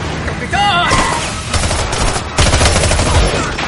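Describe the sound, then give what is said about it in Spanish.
Rapid gunfire is exchanged inside and outside a bar during a wartime firefight. Dense, loud bursts of overlapping shots continue throughout, with a brief shouted voice near the start. “En el interior y en el exterior del bar continúa el fuego cruzado.”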